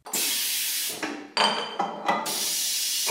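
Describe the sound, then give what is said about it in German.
A stainless steel bottling machine at a small Berlin brewery fills beer bottles and presses crown caps onto them, making a few loud hissing bursts separated by short breaks, with no talk. “Das Bier fließt, die Maschine presst den Kronkorken auf die Flasche.”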